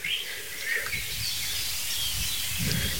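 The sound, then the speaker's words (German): Faint birdsong in a forest: a few thin, high chirps and short trills come over a soft, steady background hiss, and no voices are heard. “So langsam beruhigt dich die Lage im Wald wieder, aber nicht so wirklich. Also ruhig ist was anderes. Ruhig ist nämlich laut. Weil Vögel singen einfach gerne.”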